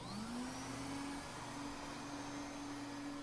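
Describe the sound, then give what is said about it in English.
A vacuum cleaner motor spins up and settles into a loud, steady whining drone, holding an even pitch with no other sounds. “We're going to learn about safety instructions when using a vacuum cleaner.”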